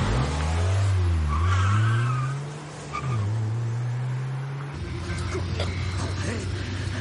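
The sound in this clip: A police car speeds along with a strong engine roar. Its pitch climbs steadily, dips, then holds high and steady, and a rougher rushing noise takes over near the end.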